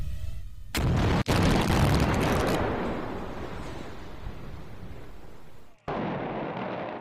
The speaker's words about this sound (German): Um 8 Uhr die erste Sprengung mit fatalem Ergebnis. Das linke Drittel des Teilbauwerks bleibt von der Detonation nahezu unberührt.